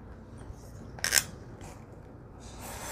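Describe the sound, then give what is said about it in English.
A craft knife slicing through thick material, heard as one short, sharp rasping cut near the middle with fainter scrapes before and after, quiet overall. “This might be a little thick to cut with the guillotine. That's why I'm cutting with my craft knife here.”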